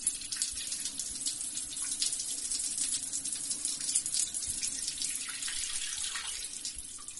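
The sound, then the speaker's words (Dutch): Water runs steadily from a tap as hands are washed beneath it, a soft continuous splashing hiss with no voices. “Dat is niet wat je denkt. Enkel even mijn handen wassen. Meer niet.”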